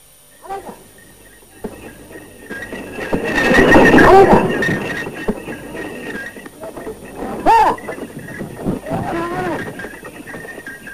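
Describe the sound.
A bullock cart being driven along, its rolling wheels and rig making a steady rumbling, creaking noise with occasional higher squeals, growing louder near the middle before settling back to a continuous rattle.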